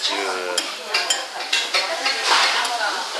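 Monjayaki sizzles on a hot griddle at a Tsukishima restaurant: a steady, bright frying hiss broken by a few sharp metallic scrapes and clinks of utensils stirring the batter.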